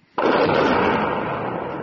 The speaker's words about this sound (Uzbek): Ukrainaning 93-chi mexanizatsiyalashgan brigadasi Baxmut atrofidagi bir nechta portlashlar aks etgan videoni e'lon qildi.